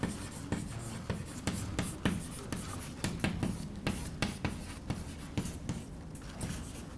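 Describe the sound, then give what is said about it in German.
Handwriting: a pen or marker makes many quick, faint scratching strokes in an uneven rhythm, with short pauses between bursts of letters, and no one talks over it. “Also ich schreibe das mal auf.”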